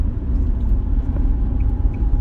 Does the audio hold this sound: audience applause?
no

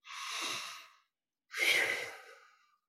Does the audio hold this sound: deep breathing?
yes

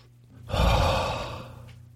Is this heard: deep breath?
yes

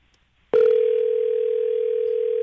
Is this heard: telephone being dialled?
yes

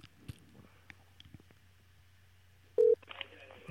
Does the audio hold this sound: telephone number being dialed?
yes

